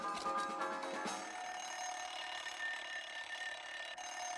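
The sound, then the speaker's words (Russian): A wind-up alarm clock rings after being wound and held against a sleeping husband's head. It gives a dense, metallic, continuous ring that is loudest in the first second, then carries on steadily to the end. “Заводит будильник и подносит к голове мужа.”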